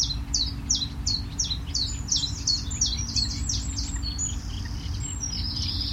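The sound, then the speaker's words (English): Warbler song: many quick, bright high chirps repeated in a steady run over a constant low rumble. “Warbler.”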